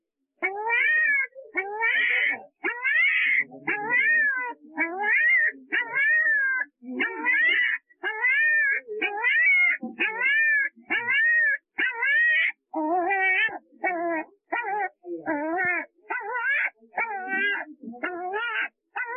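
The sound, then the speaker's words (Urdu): A puppy pinned under its mother cries in pain, giving many high, wavering whines and wails in a steady run of short repeated bursts. “یہ کتے کا ایک چھوٹا بچہ ہے جو کہ اپنی ماں کے پیچھے دب گیا ہے اور تکلیف میں مبتلا ہے”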